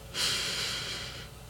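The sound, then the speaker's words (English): A single deep breath through the nose during an alternate-nostril meditation exercise. It is one smooth, airy breath lasting about a second, heard alone against a quiet background. “open your left, and breathe out. We're going to do this a few more times. Breathe in.”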